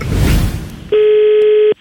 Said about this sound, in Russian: Поэтому я решил позвонить в небольшую гостиницу с очень большой просьбой.